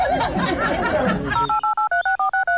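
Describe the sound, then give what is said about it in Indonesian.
Telephone keypad tones as a number is dialed for a call: a quick, regular run of short, bright beeps after a moment of lively voices. “aku menelpon mamaku dulu”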